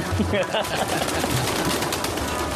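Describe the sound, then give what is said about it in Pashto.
Pigeons in a kept flock in California coo with low, soft, throaty calls near the start, set against a constant noisy background. People talk over the birds. “کفترهای مقبول رو میبینین. ایالت کالیفرنیا امریکا”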